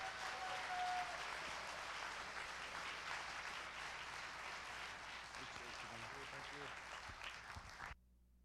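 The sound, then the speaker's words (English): Church audience applauding to welcome a guest speaker: dense, steady clapping that holds for about eight seconds and then cuts off abruptly. “what I would love is if you'd put your hands together and welcome our guest speaker for today, Aaron Freeman. Come on out.”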